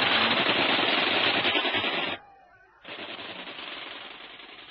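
Bren light machine gun firing in the jungle: two long bursts of rapid, dense automatic fire, the first running about two seconds and the second resuming after a short pause, loud and harsh with no voices.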